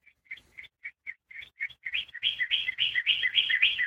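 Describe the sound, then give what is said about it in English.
Birds chirp outside in quick, high tweets. The notes start sparse and evenly spaced, then grow into a dense, overlapping chatter of rapid calls. “they're the birds. Oh, you can hear them? It sounds so peaceful.”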